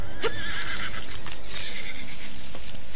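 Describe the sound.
A horse neighs, one short, bright whinny standing out early over a steady hiss of background noise, with no talk heard.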